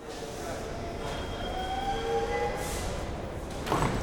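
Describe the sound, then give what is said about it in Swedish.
A train pulls into a station and stops: a steady rumble with thin, high whining tones as it slows, then short hissing bursts near the end as the doors open. “The train pulls into the station and stops. The doors open.”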